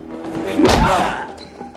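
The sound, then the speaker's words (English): A heavy slamming impact as a man is hurled into the glass front of a clothes dryer and the glass smashes: one loud, abrupt crash that fades quickly. “Burke grabs the Chinaman and propels him into the front of the dryer. The Chinaman's head goes through the glass.”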